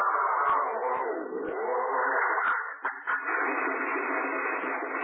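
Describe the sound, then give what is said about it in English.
A faulty old car motor is started again, heard as a continuous rough, droning mechanical sound with slight wavering and brief dips, with no talk over it. “something's wrong with the motor. Rochester, did you clean the spark plugs this morning? I not only cleaned them, I had a long talk with them. Never mind. Try it again.”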